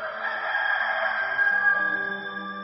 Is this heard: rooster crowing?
yes